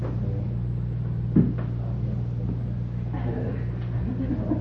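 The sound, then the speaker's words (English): Box being opened and its contents taken out: one dull thud, then soft rustling and handling noises over a steady low hum. “Now we open the box, take out the contents, and just open it up.”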